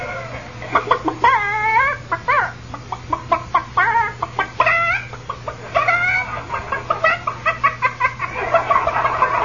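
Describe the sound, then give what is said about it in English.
A hen clucking and squawking as a witness in a comedy courtroom sketch, giving many loud, bright, uneven calls in quick bursts, some drawn out into longer squawks, with no talk. “Prosecutor, I can't understand the chicken's answers. Well, Your Honor, she's a chicken.”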